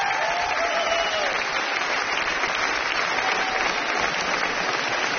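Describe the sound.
Standing ovation from a studio audience: dense, continuous clapping that stays loud and even for the whole stretch, with no voices rising above it.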